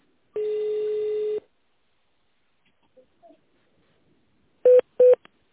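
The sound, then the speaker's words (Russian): Telephone keypad tone dialing: a steady one-second tone, a quiet gap with faint clicks, then two short, loud keypad beeps in quick succession. “наберите его в тональном режиме или дождитесь ответа секретаря”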